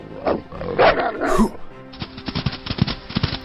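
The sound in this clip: Harsh, growling bark-like calls from a dog character in a video game after it fetches a stick: a few rough, throaty bursts at the start, followed by quieter rhythmic sounds.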